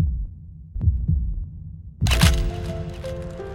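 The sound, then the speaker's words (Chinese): Heartbeat: a few deep, muffled low thumps in pairs over a faint hum, then a sudden bright, crackling burst with lingering ringing tones that carries to the end. “安静到许岩能听见自己的心跳”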